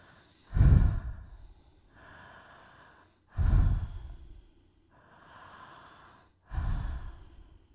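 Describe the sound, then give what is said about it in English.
Deep breaths in a guided breathing exercise: three strong, audible breaths come at even intervals. Each opens with a loud, rough burst of air and fades into a softer, longer hiss, with quiet gaps between and no talking. “we're going to do again, I just remind you, 4 medium breaths and 1 long breath. And we're going to repeat that 4 times.”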